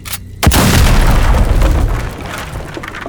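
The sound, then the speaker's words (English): An explosion blows up a mud hut: one sudden, loud blast hits, then a heavy roaring rumble holds and slowly fades out. “How many of these disgusting mud huts do I have to blow up before you show yourself?”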